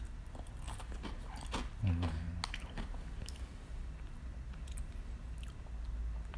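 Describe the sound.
Someone chewing a crunchy plum-flavoured Baby Star Ramen noodle snack: faint, repeated crunchy bites and mastication, low in level throughout, with one louder bite near the middle.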